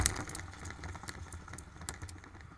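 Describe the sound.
A spinner is held in front of the microphone and spun, giving a faint run of many quick ticks over a low background hum.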